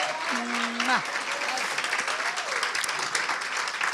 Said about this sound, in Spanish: Ayúdenme a recibir con un aplauso y mucho amor y mucha alegría a la pastora Xiomara de Cruz, que está con nosotros hoy.